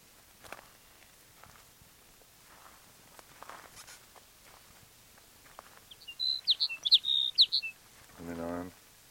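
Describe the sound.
A bird calls with a quick run of several high, bright chirps after some faint scuffling noises. A short, lower buzzing sound follows the chirps.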